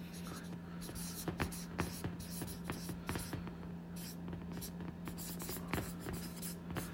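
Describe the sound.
Handwriting on paper: quiet, scratchy pen strokes come in many short, irregular bursts over a faint, steady hum.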